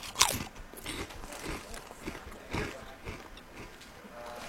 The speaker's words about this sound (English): Oh, a brisket chip is... Oh, hold on. Oh, it smells like calories. Hold on a second. I'm going in there.